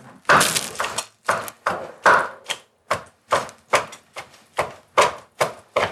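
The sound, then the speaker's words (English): Meat is chopped through the bone in a string of sharp, heavy thuds. Many strikes land in a steady rhythm, each one loud and separate, with no talk. “Is there a bone? Oh. Oh my God. Oh, so you're gonna chop it up nice.”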